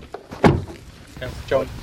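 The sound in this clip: A single solid thunk of a car door as a tracking-dog handler gets out of his car beside hunters. Speech continues over and after it.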